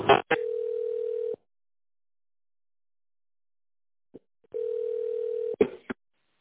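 Telephone line tones play while a call waits on hold: two steady, long tones of about a second each, separated by a few seconds of silence, with short clicks at the edges.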